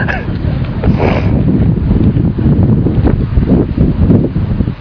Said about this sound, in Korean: 자 여러분 이게요 바람 너무 좋다.